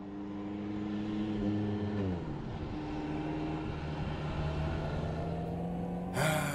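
Car engine droning during a test drive, a steady humming tone whose pitch drops abruptly partway through and then holds level, ending with a short burst of hiss.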